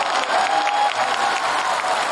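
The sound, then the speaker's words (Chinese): Audience applause welcoming a crosstalk performer to the stage to sing traditional ballads, a steady, dense wash of clapping that stays even throughout. “接下来孟鹤堂老师给大家带来太平歌词，掌声有请。”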